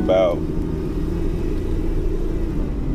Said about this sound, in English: moving about here in a car.